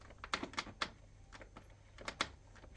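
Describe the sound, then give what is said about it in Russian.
A door handle turns quietly after footsteps stop: several soft, dry clicks spaced irregularly, faint and isolated against a low background hum. “Шаги замедлились. Тот, кто шел, остановился у дверей. Ручка тихонько повернулась.”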